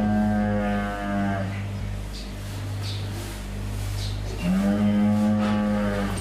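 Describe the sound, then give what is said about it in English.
Cattle mooing around a newborn heifer calf: two long, low, drawn-out moos, one at the start and one near the end, separated by a stretch of steady low rumble and faint background noise. “And you started the day with a happy, healthy heifer calf.”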